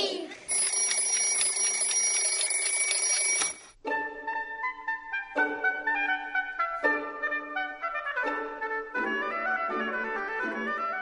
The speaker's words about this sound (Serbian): Dečiji budilnik.